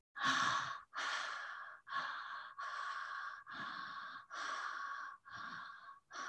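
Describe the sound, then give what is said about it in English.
Steady breathing in and out through the mouth, a continuous run of about eight breathy, airy pulls and releases with no pauses between them, moderately loud and even in rhythm with no talk. “inhaling through the mouth, exhaling through the mouth, inhaling and exhaling.”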